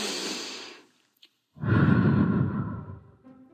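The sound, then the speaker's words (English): A deep breath: a breathy inhale, a short pause, then a long, loud, whooshing exhale that gradually fades, with no talking. “So, deep breath.”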